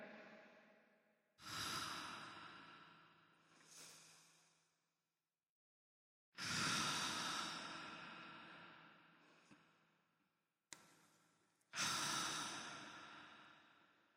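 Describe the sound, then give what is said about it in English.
A group taking deep breaths together: a few long, airy inhales and exhales separated by short pauses, soft and breathy, with no talking. “Everybody, let's all take like 3 deep breaths together.”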